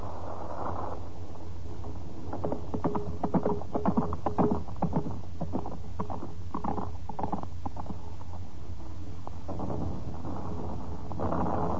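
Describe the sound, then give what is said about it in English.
A horse gallops through bombed city streets as a radio-drama sound effect, its cavalry rider riding hard; muffled, rhythmic hoofbeats sound over a steady low rumble and hiss. “A young Polish cavalry lieutenant rides furiously through the bomb streets to the house of his friend, Captain Victor X, a Polish officer, and his English wife, Sylvia.”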